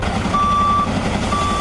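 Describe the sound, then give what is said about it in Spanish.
A firefighters' truck gives reversing beeps while crews fight a wildfire in the Cinco Villas area of Zaragoza, Aragon. Two long, steady, high electronic beeps sound over a continuous low engine rumble. “Este es el sonido de los bomberos apagando las llamas.”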